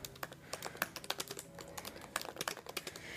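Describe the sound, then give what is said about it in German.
Quick typing on a computer keyboard while writing a short note: many light key clicks in fast, irregular bursts, faint and without talk. “warte mal, ich schreibe mal kurz noch eine Sache dazu.”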